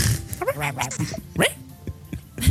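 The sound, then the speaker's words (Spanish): Dog barks come through under ongoing conversation, a few short sharp yelps mixed in with several voices talking. “el perro no es nuestro.”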